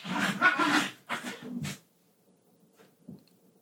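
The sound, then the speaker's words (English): Dogs barking in another room: a few loud, sharp barks in quick succession, then near quiet with a couple of faint short sounds. “The dogs are freaking out in the other room.”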